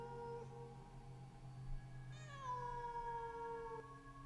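A cat meows once in a long, drawn-out cry that enters sharply and slides downward in pitch before trailing off. It is faint over a steady low hum.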